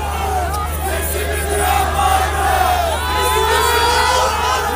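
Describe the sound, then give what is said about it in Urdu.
An angry crowd in Syria shouts during clashes with police at gatherings marking the earthquake anniversary. Loud overlapping yells and cries rise and fall over a dense babble, with a low steady hum beneath. “اس دوران مشتعل ہجوم کی police کے ساتھ جھڑپیں بھی ہوئیں۔”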